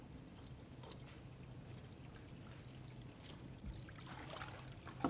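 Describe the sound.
Water flows into an experiment tank at an increased flow rate, making a steady, fairly faint rushing trickle that continues without a break and without voices.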